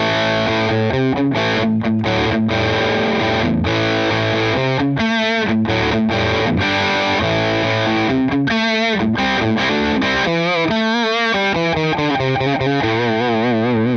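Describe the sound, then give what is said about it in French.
An electric guitar played through an Orange amp with the gain raised to about halfway sounds loud, fuzzy and slightly muddy, strumming distorted chords and riffs separated by short gaps and ringing notes. “Quand on a augmenté le gain, on entend bien le côté un petit peu muddy, hein, et presque un peu fuzz du caractère orange.”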